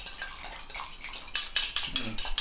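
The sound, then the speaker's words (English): A spoon stirring vegetable stock in a pot makes faint, repeated scraping and clinking strokes in an irregular rhythm. “Oh, that's a good noise. That's me stirring a veg stock.”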